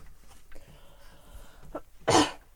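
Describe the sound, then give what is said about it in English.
A voice clears its throat once with a short, rough, fairly loud burst near the end, after a quiet stretch with a few faint sounds. “He clears his throat.”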